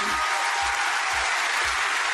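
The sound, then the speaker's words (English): Audience applause at an award ceremony: a dense, steady wash of clapping that holds at an even loudness for the whole stretch. “So I'd like a round of applause for them, please.”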